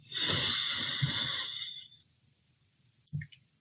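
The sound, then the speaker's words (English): A slow, deep inhaled breath makes a steady airy hiss that lasts over a second and then fades. Silence follows, then one brief soft thump. “So let's take another deep breath inhale”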